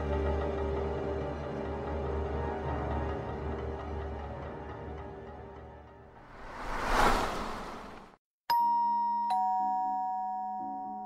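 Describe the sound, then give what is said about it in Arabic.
A doorbell rings in a horror story at seven o'clock: a low musical drone and a swelling whoosh lead into a brief silence, then a bright two-note ding-dong chime with lingering tones. “الساعة 7 بالظبط رن جرس الباب”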